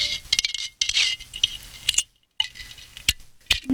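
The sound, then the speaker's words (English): A metal spoon scrapes and clinks against the bottom of a small glass yogurt jar in irregular strokes. The scrapes are bright and gritty, and one short silent pause falls midway. “Is he trying to finish yogurt? Yes! It's one of those little French ones? Yeah. Little, like little jars?”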